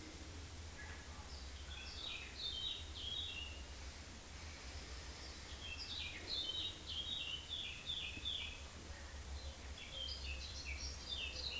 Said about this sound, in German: Die Vögel zwitschern.